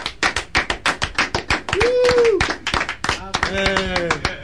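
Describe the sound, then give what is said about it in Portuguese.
A round of applause in a studio, heard as sharp, rapid claps in a brisk rhythm, with a sustained vocal whoop partway through and voices talking over the clapping near the end. “E já agora, vou pedir uma salva de palmas. Uma salva de palmas para o Raul.”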